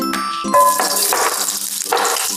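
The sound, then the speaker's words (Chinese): Ginger slices sizzle in a hot pan of cooking oil over low heat, a bright, loud hiss in bursts, mixed with clear ringing metallic tones from the cookware. “开火热锅，倒入适量的食用油，转小火，放入姜片”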